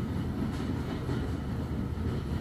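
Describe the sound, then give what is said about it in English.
A train carriage running across a viaduct produces a steady, loud low rumble with a broad roar above it, continuous and even, with no distinct clicks. “As quickly as you arrived, carriage reaches the end of the viaduct,”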